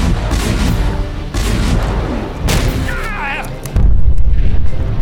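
A ship's cannon fires in a sea battle, with deep, heavy booms over a dense, rumbling noise. The final blast is the loudest and its low roar carries on to the end.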